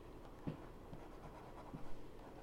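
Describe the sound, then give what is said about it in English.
Pen with a wet-writing ink moving across paper: a faint, soft scratching with a few brief louder strokes. “See, it might be the ink. It's writing a bit wetter.”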